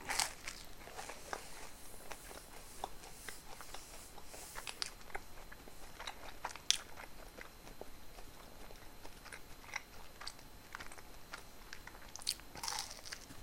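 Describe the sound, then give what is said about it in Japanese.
Faint, crisp biting and chewing of a coffee-flavored soft cookie, many small crunchy clicks and crackles scattered at a low level throughout. “このコーヒーソフトは美味しいわそして4枚あれば足りそうだな”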